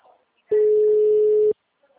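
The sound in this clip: A telephone line gives a ringback tone, a single steady mid-pitched beep lasting about one second between quiet stretches.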